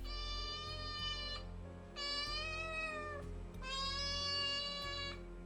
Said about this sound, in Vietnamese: từ trên nhà trên có tiếng mèo kêu lên vang vọng